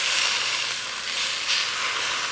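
A pot roast sizzles as it sears in a pan after being flipped, a steady, even hiss of frying with no talk.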